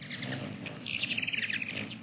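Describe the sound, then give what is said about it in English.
Call of a tiny Anna's hummingbird: a quick series of thin, high, squeaky chirps, faint over a steady background hiss. “This tiny Anna's hummingbird is a bird of the West.”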